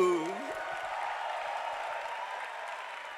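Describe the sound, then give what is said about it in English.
Applause from a church audience welcoming a woman pastor to the front during a pastor's appointment service. A voice briefly opens, then a steady, even wash of clapping carries on to the end. “Let's put our hands together and let's welcome Lady Pastor Lulu.”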